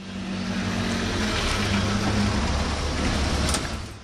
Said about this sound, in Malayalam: ദേ വണ്ടി വന്നു